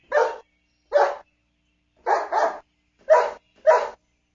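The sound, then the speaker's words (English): Dogs barking: six sharp, mid-pitched barks, including a quick double bark near the middle, each set off by clear silence. “Dogs bark.”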